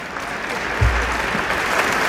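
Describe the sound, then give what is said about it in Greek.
A crowd applauds loudly: thick, continuous clapping that runs evenly throughout, with a single low thump partway through. “Χειροκροτήστε, χειροκροτήστε.”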